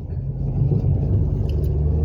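Low rumbling engine and road noise of a vehicle driving over a bridge construction site, a steady, loud drone throughout.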